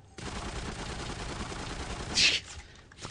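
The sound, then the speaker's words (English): Gunfire in a video game: a faint, sustained rattling burst runs for a couple of seconds, then a single sharper, brighter shot stands out near the end before the sound drops away. “Oh, he's going to shoot him in the neck?”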